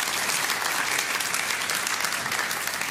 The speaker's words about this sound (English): can we put our hands together and just welcome anyone who is tuning in?